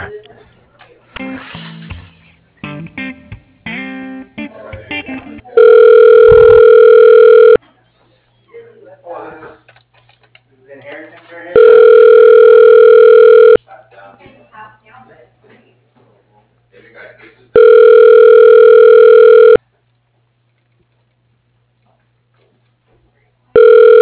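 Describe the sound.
Ringback tones sound as a phone call is transferred to a dental office manager's voicemail. Three steady, fairly loud tones of about two seconds each are spaced out, with talk before them and between them.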